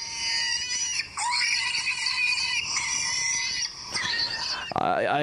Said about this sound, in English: I believe that I have just startled a wild boar piglet.